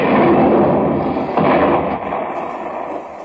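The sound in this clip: A ship's cannon fires a shot loaded with a double powder charge: a loud, broad boom that rumbles on and slowly fades over a few seconds.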